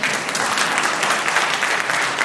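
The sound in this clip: An audience at a panel discussion applauds with a steady wash of many hands clapping, dense and even in loudness from start to finish.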